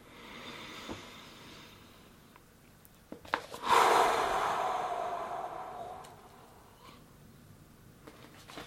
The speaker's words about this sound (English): For several breaths, inhale fully in this way, filling your belly, solar plexus, and finally your chest, then exhale fully, slowly, and smoothly.